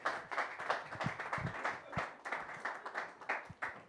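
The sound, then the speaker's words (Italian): Audience applause at a comedy night, a faint, dense patter of many hands clapping continuously with no clear pauses. “Un applauso ai pelati!”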